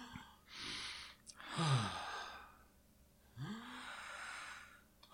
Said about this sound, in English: Let's take a second. Okay. We're going to breathe for 5 seconds together.